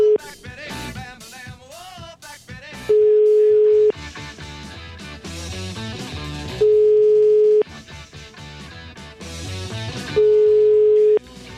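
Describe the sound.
A telephone rings on the line while the caller waits for an answer. Three long, steady, even ringback tones sound with pauses between them, and music plays in the gaps.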